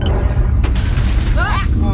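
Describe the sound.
A heavy booming crash as a spaceship bumps into another rocket while docking at a crowded space station: a dense, loud, low rumble runs throughout, with a few sharp impacts and brief whooshing tonal sweeps near the end.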